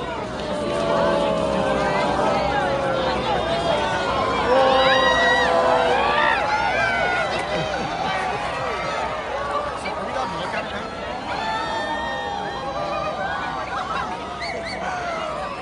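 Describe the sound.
Crowd at a lakeside park on Lake Ontario in Kingston reacting as a total solar eclipse reaches totality: a dense, steady wall of chatter, cheers and whooping shouts, loud throughout and briefly swelling a little louder early on.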